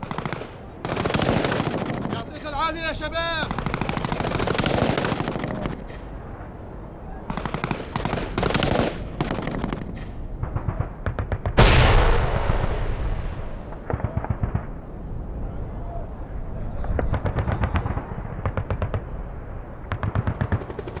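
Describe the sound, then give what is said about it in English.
Gunfire and explosions from a virtual-reality Iraq war simulation used in therapy for soldiers with post-traumatic stress: dense bursts of rapid machine-gun fire, with one heavy blast booming partway through and more firing after it. “That's the sound of Virtual Iraq, part of a pioneering new psychological trial that's aiming to help soldiers overcome post-traumatic stress from their time in the war zone.”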